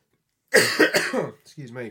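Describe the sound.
A person coughs from the last traces of a cold, giving a quick run of harsh, loud coughs followed by a shorter voiced throat-clearing sound.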